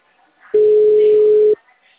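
A telephone ringing tone sounds while the caller waits for an answer: a single steady, pure beep lasting about one second, loud and clear, with near silence before and after.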